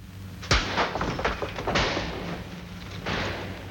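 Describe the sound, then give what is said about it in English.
Locked doors are smashed in with a few heavy crashing blows, starting with a sharp impact and followed by broader, booming thuds with rattling in between. “Try the doors. They're locked, sir. Look, sir. I'll smash them in. Go on, bring them right down.”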